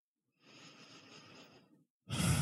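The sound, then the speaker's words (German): Gentle breathing: one soft, drawn-out exhale lasting about a second and a half, a short pause, then a louder breath starting right at the end, with no talk. “Atme weiter sanft ein und aus, entspann dich”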